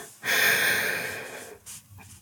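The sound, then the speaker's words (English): A deep breath drawn by someone comforting another person: a long, airy rush of breath that swells quickly, holds for about a second and slowly fades, followed by a couple of softer breathy sounds. “Okay, so let's take a deep breath.”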